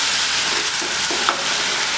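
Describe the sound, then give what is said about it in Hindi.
Ginger and garlic paste is stirred into a hot pan, giving a steady, even sizzle that hisses loudly and continuously without a break. “और इसके ऊपर हम डालेंगे ये एक चम्मच अदरक और लहसुन का पेस्ट, इसको इस तरह से मिक्स कर लेंगे।”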